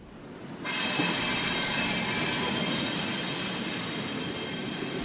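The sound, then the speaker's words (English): Rumbling clatter of a train crossing a railway drawbridge over the Ballard Locks: a loud, broad, steady roar sets in after a brief quieter moment and holds evenly to the end. “That's the sound of a train crossing the railway drawbridge that goes over the Ballard Locks.”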